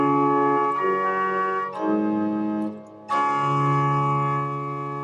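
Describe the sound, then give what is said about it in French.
Sustained keyboard chords in meantone temperament, played in one of the favoured bright keys, ring with rich, pure harmonics and change a few times, with a short dip in volume before the final chord. “Et ici, le tempérament mésotonique donne une grande luminosité à la musique qu'on va jouer, à condition qu'on joue dans les bonnes tonalités.”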